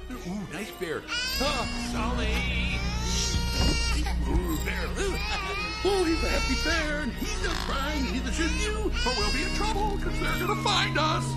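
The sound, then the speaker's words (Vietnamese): A small child wails and sobs in long, rising and falling cries that come almost without a break, loud over a dense background of music and other sound. “Làm ơn đừng khóc nữa mà.”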